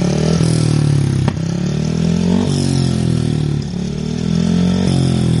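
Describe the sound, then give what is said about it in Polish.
A speedway motorcycle engine roars on a frozen reservoir at Rydzyna. The loud, raspy drone runs continuously, with pitch repeatedly sagging and climbing as the throttle shifts, and no voices. “Na ten dźwięk motocykla żużlowego kibice czekali już dość długo. Mogli go usłyszeć wszyscy ci, którzy w sobotnie południe pojawili się nad zamarzniętym rydzyńskim zalewem.”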